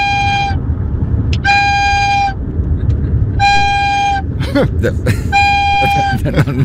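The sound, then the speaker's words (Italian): A flute played by a caller over a phone line gives four long, steady high notes at the same pitch, separated by pauses, over a noisy line hiss. Brief voice sounds break in near the end. “E oggi vi volevo suonare una canzone col flauto.”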